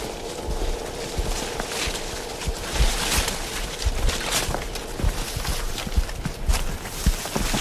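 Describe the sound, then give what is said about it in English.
Footsteps squelch and splash through a slough, a loud, continuous run of wet, sloshing steps with a broad rushing texture. “So that's pretty characteristic noise, is walking through the slough.”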